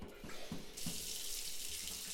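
Shower water runs, faint and steady. A few soft knocks come first, then the spray settles into an even, continuous hiss.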